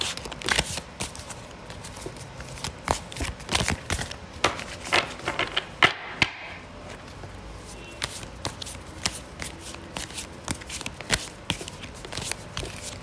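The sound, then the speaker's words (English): Tarot cards being shuffled by hand: many crisp flicks, riffles and taps in irregular bursts, fairly faint and continuing throughout. “per usual I'm going to pick three tarot cards. So as I'm shuffling, pick between one and three”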